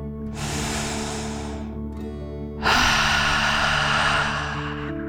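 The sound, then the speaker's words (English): A deep breath is taken during a children's guided meditation: a breathy inhale, a short pause, then a longer and louder hissing exhale, heard over soft, sustained background music. “Let's take another deep dragon breath in and out.”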